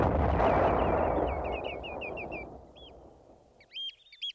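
A cannon net fires at wading birds such as dunlin, redshank, oystercatchers and ringed plovers. The loud booming blast rumbles away over about two seconds while birds give high piping calls, with two sharper calls at the end.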